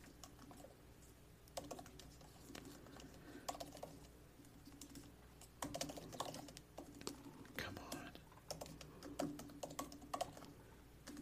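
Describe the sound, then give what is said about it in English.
Fingers type on a computer keyboard in quick, uneven bursts of light clicks, fairly faint, with a low voice murmuring underneath. “Why did I type that in all caps? Because I cannot type.”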